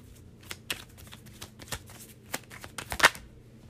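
Tarot cards handled as one is drawn from the deck, with many crisp, irregular snaps and flicks of card stock, mostly quiet and growing sharper toward the end.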